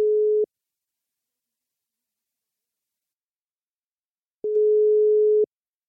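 Telephone tones as a call is placed: a short, steady mid-pitched beep, a long silence, then a longer beep at the same pitch.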